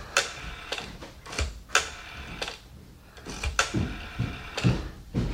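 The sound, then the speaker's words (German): A telephone is dialed to call the police. Quiet mechanical clicks and ticks come in uneven groups, with a short pause in the middle, and no one speaks. “Ich rufe Kommissar Schneider an.”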